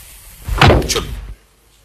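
A door being opened, heard as one loud burst of creaking, rattling noise lasting under a second, with no voices over it.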